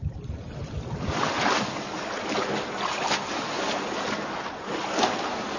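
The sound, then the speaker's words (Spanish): Water splashes from a swimmer diving into a deserted indoor pool and swimming front crawl. Continuous churning is broken by repeated splashy stroke bursts at a fairly regular rhythm. “Una nadadora se sumerge en una piscina cubierta.”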